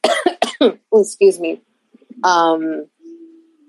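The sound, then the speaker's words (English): A cough and burp at the same time: several short, sharp bursts, then a longer croaking, tonal sound, and finally a faint low hum. “I had to like cough and burp at the same time. That's not fun.”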